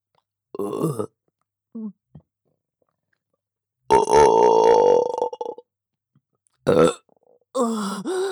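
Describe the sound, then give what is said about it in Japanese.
Burps come one after another with silent gaps between them: a few short croaks, one long, drawn-out belch in the middle, and louder ones toward the end. “ゲップ出ちゃいます。”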